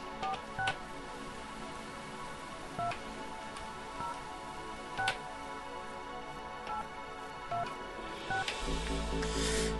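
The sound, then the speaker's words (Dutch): A telephone dials a call, with a series of short, faint keypad tones spaced out over a low background hum, ending in a louder burst of low noise. “We gaan dan weer natuurlijk een van de artiesten bellen.”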